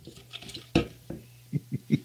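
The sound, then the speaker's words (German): A hand rummaging in a lottery pot to draw a lot: quiet, scattered rustles and clicks with a few sharper knocks against the container. “Ich habe jetzt das Rührgerät entnommen und werde jetzt in den Lostopf greifen. Ich schaue auch nicht hin.”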